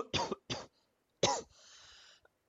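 Three short, harsh coughs, two in quick succession and a third after a brief pause, followed by a faint breathy rasp.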